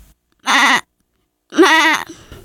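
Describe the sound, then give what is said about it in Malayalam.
A goat bleats twice, loud and alone. A shorter wavering call comes first, then after a pause a longer, quavering bleat that starts low and rises, with a faint trailing sound at the end. “Aadu.”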